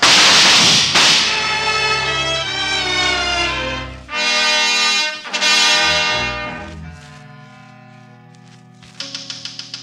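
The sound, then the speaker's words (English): A firing squad's rifle volley cracks out as one sharp, loud burst at the start. Dramatic orchestral music follows with sustained swelling chords, and a few light taps come at the close. “Firing squad, ready, aim, fire!”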